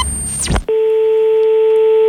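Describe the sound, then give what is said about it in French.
A telephone line tone, heard while placing a call to Boston, holds as one steady, loud electronic pitch after a brief burst of noisy, sweeping sound. “nous l'avons appelé à Boston”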